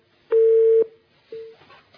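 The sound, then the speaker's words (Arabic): Telephone tone after a phone call drops: two plain, steady electronic beeps at one pitch. The first is loud and lasts about half a second; the second, after a short gap, is shorter and fainter. No talk. “يعني انقطع اتصال ام خالد.”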